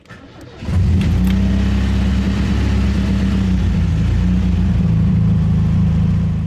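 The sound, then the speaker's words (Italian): A car pulls away as the driver sets off: the engine runs quietly for a moment, then surges sharply and holds a loud, steady, low drone for several seconds. “salgo al posto di guida e riparto.”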